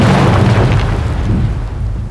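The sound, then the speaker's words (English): A loud explosion blows the roof off a cathedral: a heavy, deep rumbling boom that stays strong at first, then slowly thins and fades over about two seconds. “you hear a loud explosion and the entire roof of the entire cathedral is blown completely off the building”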